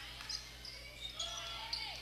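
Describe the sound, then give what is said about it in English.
Basketball dribbled on a court during a women's game involving Mexico, heard as a few faint, soft bounces with occasional high sneaker squeaks over a low, steady background. “As Willers checked back in the ballgame, she will have the left-hand dribble.”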